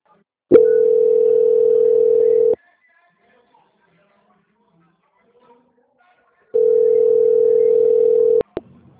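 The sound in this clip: A steady, mid-pitched telephone tone sounds while a sales call is transferred to quality control. Two beeps of about two seconds each are separated by a long silence, and a couple of sharp clicks follow at the end.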